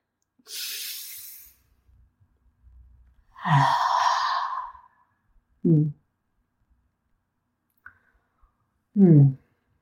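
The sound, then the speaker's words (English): A deep breath: an airy inhale, then a longer, sighing exhale with some voice in it, followed by brief murmured vocal sounds separated by quiet gaps. “Let's take a breath. Take a breath with me.”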